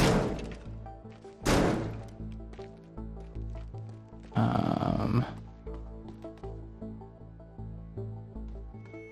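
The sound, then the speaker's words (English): A sledgehammer smashes through a brick wall in the video game Teardown with a few heavy, sharp impacts. The last blow becomes a longer crumbling crash, all over a steady low, pulsing game soundtrack. “Oh, of course the door's locked. But I have a sledgehammer. Oh, there's brick under the wall. That's gonna be harder to get through.”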